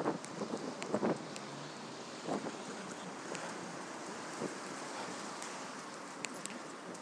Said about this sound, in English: Whoa, it's getting breezy now.